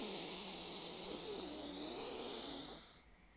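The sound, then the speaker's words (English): A deep breath drawn in through the nose: a loud, airy, rushing inhale that holds steady for about three seconds, then stops abruptly and leaves near silence. “You start breathing from below your belly button. You want to feel it fill all the way up to your collarbones. And you're breathing through your nose. So the first breath in sounds like this.”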